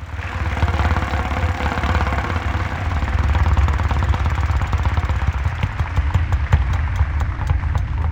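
A game show prize wheel spins with a rapid, continuous clatter of clicks over a low background hum. The individual ticks grow more distinct toward the end.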